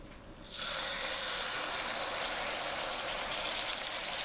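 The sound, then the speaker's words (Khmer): Steady, loud sizzling hiss as thick, undiluted coconut cream is poured into a cooking pot over melting ingredients, starting abruptly after a brief quiet moment and continuing unbroken to the end, with no talking. “បន្តមកទៀតនេះខ្ញុំសូមដាក់ខ្ទិះដូង”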